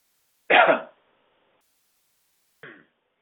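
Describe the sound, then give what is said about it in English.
Throat clearing by a channelling speaker: a rough, gravelly clearing burst followed after a pause by a short, softer second one, with silence around them. “We're having a little bit of difficulty with the channel's throat here. We'll clear it up here.”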